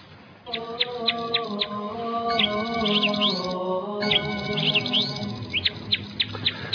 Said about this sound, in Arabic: دي زقزقة العصافير.